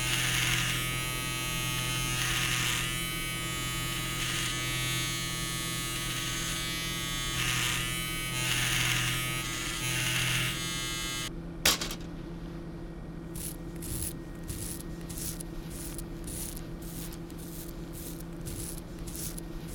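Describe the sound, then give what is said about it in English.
An electric razor shaves the hair around a dead man's head in a morgue before an autopsy incision. A loud, steady buzzing drone runs for about eleven seconds, then cuts off with a click, followed by quieter rhythmic ticking. “I'm shaving the hair around his head in order to make a clean incision as we remove the skull cap.”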